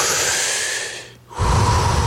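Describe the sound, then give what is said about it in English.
A person demonstrates smooth, rhythmic breathing: a long airy inhale, then a brief pause, then a fuller, steady exhale, heard alone without talk. “So you want to smooth in and out. So if you breathe rhythmically and evenly, silky smooth, rhythmic and even”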